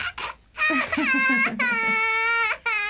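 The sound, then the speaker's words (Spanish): A baby cries in a few high-pitched, wavering wails with short breaths between them, loud and alone. “Ya no seas travieso, bebé, y deja de llorar.”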